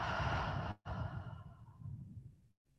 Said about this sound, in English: the invitation is to take an inhale through your nose and an exhale through your mouth.